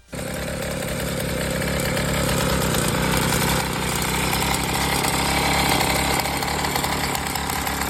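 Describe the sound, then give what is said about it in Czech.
A Babeta 210 moped engine runs with a loud, steady, raspy buzz that starts abruptly and holds at an even level throughout. “Tohle je zvuk Babety, kdybyste nevěděli. Jo? Tohle byla Babeta 210”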